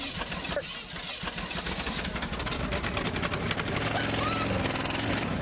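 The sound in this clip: Engine of a rebuilt machine with a bad misfire, running at a competition: a loud, dense, continuous churning roar that holds steady throughout, with people talking over it.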